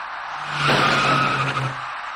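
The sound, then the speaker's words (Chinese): A white car's tires squealing as it skids on a rain-slick intersection toward an electric bicycle turning left: a harsh, sustained screech of about a second rising out of steady background noise. “电动自行车骑车人自西向东而来后突然向左转弯，采取措施不及的白色小客与对方相撞后”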